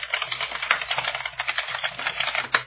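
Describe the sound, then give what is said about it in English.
Keystrokes on a computer keyboard as a password is typed: a quick run of many light, rattling clicks, ending with one stronger press. “I'll type in my email address as my password.”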